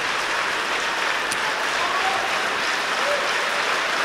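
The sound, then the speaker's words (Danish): Concert audience applause in Symfonisk Sal after the Aarhus orchestra's performance, a steady, even wash of clapping that stays at a constant level throughout, with no voices. “også står op nu og udtager publikums hyldest, vender sig op mod korbænkene foran orglet på bagsiden nu.”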